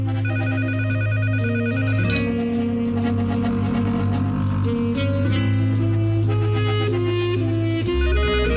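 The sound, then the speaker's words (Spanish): A mobile phone ringing with a melodic ringtone while lying on a bed at home, a loud, continuous repeating tune of stepped electronic tones that plays without pause for the whole stretch. “¿Dónde está su teléfono? Está suene y suene.”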